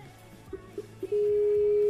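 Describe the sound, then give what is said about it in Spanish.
A Skype call alert: a few short electronic beeps lead into a steady, sustained mid-pitched tone that holds to the end. “Sonido de llamada de Skype”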